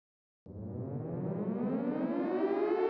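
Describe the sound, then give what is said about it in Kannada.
An air raid siren sounds the all-clear, a single wail bursting in after silence and climbing steadily in pitch as it winds up, loud and sustained to the end. “ಅದಾದ ಕೆಲವು ನಿಮಿಷಗಳ ನಂತರ ತಾತ್ಕಾಲಿಕ ಶಾಂತಿಯ ಆ ಮೂರು ಸೈರನ್ಗಳು ಕೂಗಿದವು”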